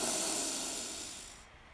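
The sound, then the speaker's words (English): A deep breath in during a guided breathing exercise, heard as a long, breathy rushing hiss that begins loud and gradually tapers off. “So deep breath in”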